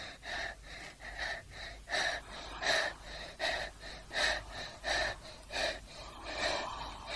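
Heavy breathing, a steady run of many rasping, gasping breaths in a rapid, even rhythm, fairly loud and breathy with no speech.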